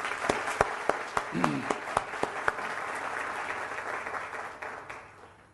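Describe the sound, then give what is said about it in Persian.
Audience applause at a lecture on marriage: a dense patter of clapping with several sharper claps standing out early, fading steadily over the last second. “حرفم درست یا نه برای خودتون یه دست بزنید”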